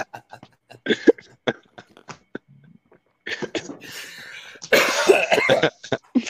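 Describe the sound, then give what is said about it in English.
Harsh coughing and throat clearing from phlegm caught in the throat, a few rough bursts following some faint clicks and breaths. “That put like a little phlegm in my throat.”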